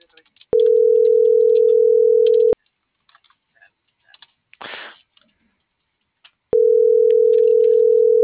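Telephone tones while placing a call: two long, steady, mid-pitched beeps of about two seconds each, separated by a long pause holding faint clicks and a brief noisy rustle.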